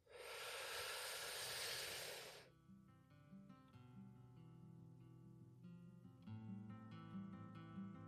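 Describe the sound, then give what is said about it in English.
A deep breath is drawn in as a soft, broad airy hiss lasting about two seconds. Gentle music with sustained tones and a low drone follows, all faint and calm. “So let's go ahead and take a deep breath in.”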